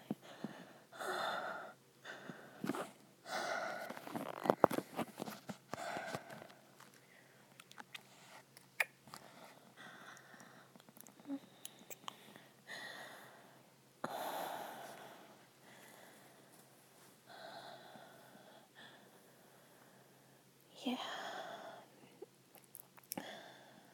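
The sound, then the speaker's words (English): Slow breathing sounds very close to the ear, each soft inhale and exhale drawn out and airy. Many quiet breaths come at an irregular pace, with a few sharper, louder gasps among them. “Just relax. Feel me breathe in your ear.”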